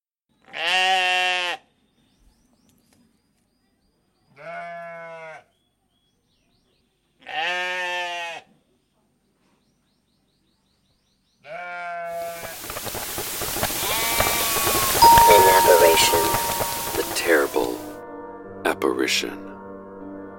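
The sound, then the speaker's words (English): Sheep and goats bleating on a farm: four loud, wavering bleats separated by silences, followed by a dense, hissing, noisy stretch that carries further calls. “So let's return to the farm sounds previously in progress.”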